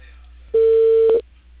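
A single telephone line tone sounds as a cable internet provider places a call about an installation: one steady, mid-pitched beep lasting about two-thirds of a second, loud against near silence, with no talk.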